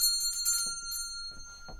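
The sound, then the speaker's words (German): Ringing of a bell sounded by pulling a bell pull: rapid repeated metallic strikes over a sustained high ring, heard fairly faintly. “Ziehen Sie die Klingel, habe ich gesagt.”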